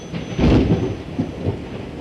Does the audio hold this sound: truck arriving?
no